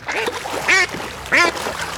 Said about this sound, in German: Enten.